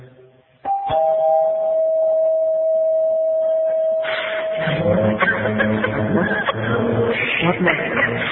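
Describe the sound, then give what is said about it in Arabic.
A doorbell rings as one long, steady mid-pitched tone for about three seconds, then stops as talking and background noise take over. “عندك الجرس”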